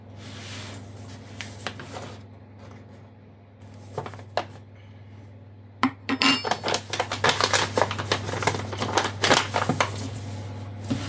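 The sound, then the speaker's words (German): Kitchen handling while 350 grams of flour is weighed on a kitchen scale: scattered taps and clinks at first, then a busy run of rustling, scraping and clattering over a low steady hum, with no talking. “Wir wiegen ein 350 Gramm Mehl. Also wieder die Waage an.”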